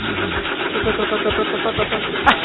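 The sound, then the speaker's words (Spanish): An old 1973 car engine cranks and struggles to start, a rhythmic series of low chugging turnover pulses over a whirring starter, repeating evenly and fairly loud. “Gran década de autos. Salieron muy bien. Arranca. Ahí está. Le cuesta, pero arranca.”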